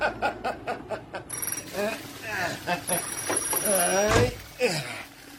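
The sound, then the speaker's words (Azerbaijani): A telephone rings in two high, bright electronic bursts, the second longer than the first, while people talk over it. “O telefona cavab ver. Əmir. Hara getdi bu?”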